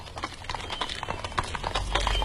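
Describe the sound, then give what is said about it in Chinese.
Horse hooves clip-clop in a quick, steady rhythm as a horse-drawn carriage travels along, with a low rumble running underneath and no voices. “刘瑾见陈廷敬的马车渐渐远了”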